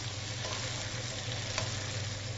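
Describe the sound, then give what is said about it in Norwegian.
Reindeer meat frying in a pan with butter and olive oil gives a steady, faint sizzle, a continuous crackling hiss with no voices. “Da har reinsdyret fått lov til å gjort seg nesten ferdig, men de siste tre minuttene så blander man inn smøret, fordi at smøret tåler ikke den samme varmen som olivenoljen.”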